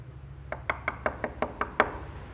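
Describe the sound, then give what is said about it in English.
Knuckles knock on wood in a steady, evenly spaced series of eight crisp raps, moderately loud over a constant low hum. “Keep on knocking, folks.”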